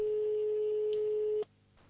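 A steady telephone line tone sounds while a call is being dialed. It is a single low, continuous hum that holds for about a second and a half, then cuts off abruptly, leaving faint line hiss.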